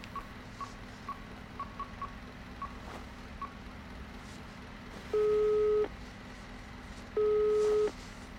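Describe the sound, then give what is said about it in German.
Telephone call being dialed: a quick series of faint, short dialing beeps, then a pause and two long, steady ringing tones with a gap between them, all quiet and without talk. “Moment, ich rufe mal in der Gerichtsmedizin an, ob Paolo schon da war.”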